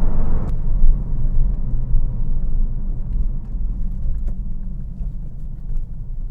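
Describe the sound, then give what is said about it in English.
A car being driven fast gives a steady, heavy low engine rumble with slight surges, loud and continuous with no talk over it. “Alright, give me a minute while I drive like a maniac.”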